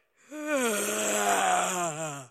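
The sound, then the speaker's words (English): A human voice imitates a bear's huge yawn: one long, groaning vocal drone lasting about two seconds. It rises briefly at the start, then slides slowly downward in pitch, steady and alone. “with a huge yawn.”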